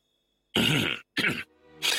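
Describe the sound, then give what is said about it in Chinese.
A man coughing: a few harsh, throaty bursts with a brief voiced, groaning sound between them, loud and alone with no talk. “项梁咳嗽了一声”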